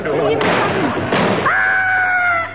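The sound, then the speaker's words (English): A comic sound-effect explosion of boots: two harsh, booming bursts in quick succession, then a pair of steady, sustained high tones that hold to the end. “God, our boots have exploded.”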